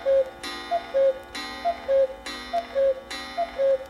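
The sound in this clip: Clock ticking and striking twelve noon: steady small ticks continue between loud resonant strikes, four of which ring out about a second apart, each with a long shimmering decay.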